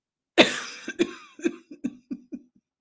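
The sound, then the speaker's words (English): Coughing from a person during a live healing session: one strong opening cough followed by a rapid string of about seven shorter, weaker coughs that fade away, heard alone without speech. “such a pleasant sound to listen to me cough, isn't it?”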